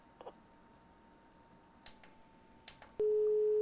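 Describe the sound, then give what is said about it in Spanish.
A telephone busy tone follows a call that has been cut off: a few faint clicks, then a loud, steady electronic tone that starts abruptly and holds to the end. “Se cortó la comunicación, esperamos nos vuelvan a marcar”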